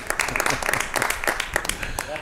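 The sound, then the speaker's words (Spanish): Applause at a town fair in Peal de Becerro: scattered, uneven clapping mixed in with a busy hum of talking voices. “Un aplauso, señor.”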